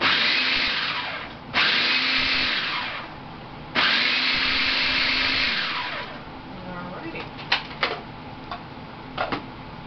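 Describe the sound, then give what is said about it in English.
A kitchen blender or food processor pulses ingredients seasoned with salt and pepper: two long, loud whirring bursts run one after the other, then fade into a few faint, sharp clicks and knocks. “And I'm going to put my salt and my pepper. Okay. And then we're going to pulse this.”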